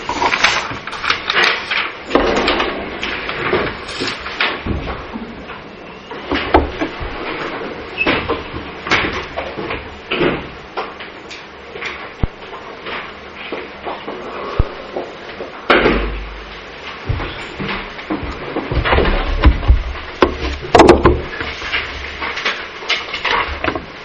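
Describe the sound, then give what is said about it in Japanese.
Windows being shut during a church service: a busy spread of knocks, bumps, sliding scrapes and clatters, many of them overlapping, over a constant background rumble. “近くの方は窓を閉めていただきますようにお願いいたします。”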